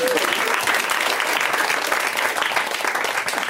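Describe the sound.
Audience applause rings out steadily for the full few seconds, a dense, even wash of clapping with no breaks.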